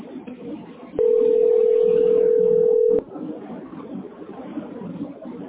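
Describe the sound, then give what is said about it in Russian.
A steady telephone dial tone sounds while a call is placed, one unbroken hum lasting about two seconds that starts and stops abruptly, over faint low background noise. “Может, еще рано я звоню? Скорее всего, рано.”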